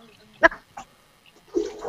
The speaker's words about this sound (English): Because he's in a bathtub. I'm rinsing my hair out.